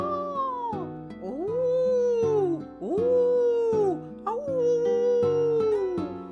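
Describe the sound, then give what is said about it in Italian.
A human voice imitating a dingo howling, producing about four long, tonal howls whose pitch swoops up and then slides down, loud and sustained, with brief gaps between them. “L'ultimo era il verso del dingo, spiegò Leonard. I dingo ululano e abbaiano, lo sapevi?”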